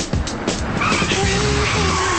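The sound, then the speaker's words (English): Tires squeal as a Chevy convertible speeds around a corner and skids to a stop: engine noise gives way to a loud, sustained, high screech that holds to the end. “A beautifully maintained Chevy convertible speeds around the corner, bearing down and passing across the street. The car skids to a stop.”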